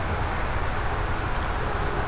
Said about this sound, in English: Listen to that loud-ass traffic.